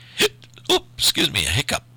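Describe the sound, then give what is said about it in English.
Hiccups from a person reading aloud, a few sharp, voiced bursts with short gaps between them and a tight cluster of jerky catches toward the end. “Oh, this is not going to be good if I'm going to get hiccups while I'm reading stuff to you.”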